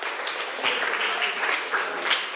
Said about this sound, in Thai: ปรบมือให้กลุ่ม2และกลุ่ม5ค่ะ